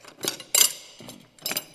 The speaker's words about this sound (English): we're going to get around a little bit of knife throwing and whatever else we can find here to throw. Let's start off with